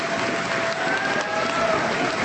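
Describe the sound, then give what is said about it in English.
Applause fills a school gym after an apology ceremony, a steady, even patter of many hands clapping together at moderate loudness throughout. “As he finished, the gym filled with applause.”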